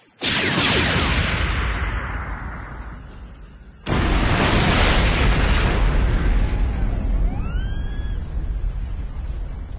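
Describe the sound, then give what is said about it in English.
A fireball explosion sound effect for a sci-fi battle: two sudden loud blasts, each trailing into a long rumbling decay, the second followed by faint rising whistles. “Kenobi, his dragon mount, and all five of the destroyer droids he'd been fighting vanished in a fireball that for an instant outshone Utapau's sun.”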